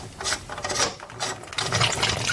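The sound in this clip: Ratcheting mechanical clicks and grinding as a part is turned to unscrew it, soft bursts of rasping clicks with no talk.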